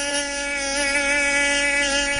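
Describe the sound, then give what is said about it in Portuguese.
A mosquito's high, thin whine drones on steadily and unbroken, loud and alone with no voices or other noise. “Esse zumbido aí incomoda, não é verdade? Sinal de que tem um mosquito perto pronto para picar.”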